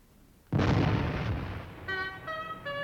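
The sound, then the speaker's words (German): A cannon fires once in a stage drama about a battle at Fehrbellin. The sudden loud boom rolls into a long, rumbling decay, and sustained tonal notes enter near the end. “Lasst den Kanonendonner ihn erwecken.”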